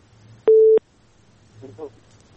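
A single short, steady telephone tone beeps once from a failed call-in connection to a radio phone-in programme, followed by faint murmuring.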